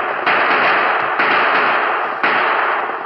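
Gunshots in an old western radio drama as outlaws ride away: three sharp cracks about a second apart, each opening into a loud, lingering wash of noise.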